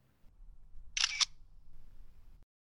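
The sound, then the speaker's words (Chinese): A camera shutter snaps once as a photo is taken: one brief, crisp, bright mechanical click standing alone over a faint low hum. “接下来，请您拍照留念。”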